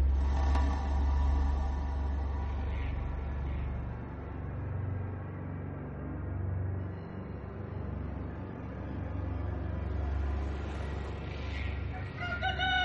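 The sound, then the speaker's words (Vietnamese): A rooster crows at dawn in a riverside countryside setting. The faint crowing sits over a steady low hum that lasts throughout. “Không chỉ có tiếng gà gáy mỗi lúc bình minh, mà cả tiếng sóng rì rào đang vỗ bờ”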